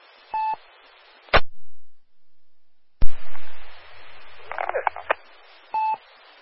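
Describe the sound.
Electronic beeps and touch-tone dialing as a station calls into an amateur radio net round: short steady beep tones at the start and end, sharp clicks, and a cluster of mixed dial tones in the middle.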